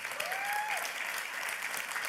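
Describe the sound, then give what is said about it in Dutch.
Audience applause, an even, fairly faint wash of clapping that holds steady for about two seconds without voices. “Geef God een applaus, jongens.”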